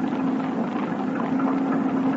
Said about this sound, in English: It could be a Thornycroft MTB. A little small, though.